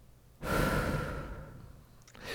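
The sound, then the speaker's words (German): Deep breath in and out: one long, loud, breathy rush that swells quickly and then slowly fades, with no talking. “Ich muss jetzt erstmal tief einatmen und ausatmen.”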